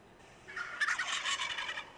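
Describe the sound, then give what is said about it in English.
A white tom turkey gobbles once: a loud, rapid, rattling warble that lasts about a second and a half and stands alone with no voices. “they're, you know, both white tom turkeys and they look oh so good to eat”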